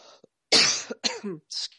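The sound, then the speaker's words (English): A person coughs and clears their throat: a few short, harsh bursts, one of them a rougher, gravelly throat clearing, separated by brief silences. “Excuse me, I've got something in my throat.”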